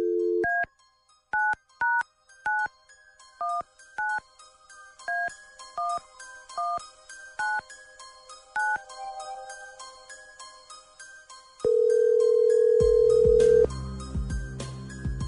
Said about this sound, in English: Dialing at random.